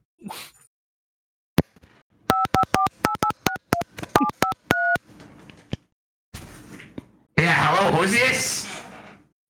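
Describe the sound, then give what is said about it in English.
Telephone dialing tones ring out as a number is keyed in: a rapid run of many short, clear keypad beeps. Louder, rougher noise follows the beeps. “Let me dial them in. Let me dial them in real quick.”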